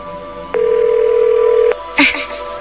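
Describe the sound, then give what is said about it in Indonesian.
A mobile phone call rings out on a borrowed handset, placed to a lost phone: one loud, steady ringing tone holds at an even pitch for just over a second, then a short noisy burst follows. “coba gue pinjam handphone lo. Gue mau coba telepon.”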